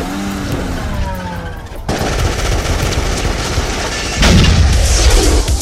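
Film-trailer gunfire: loud, dense bursts of rapid machine-gun and rifle shots that run almost without a break and grow heavier toward the end.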